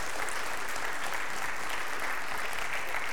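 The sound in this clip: Congregation at a Sunday morning worship service applauds to welcome newcomers, a thick and continuous patter of many hands clapping at a steady loudness without pause.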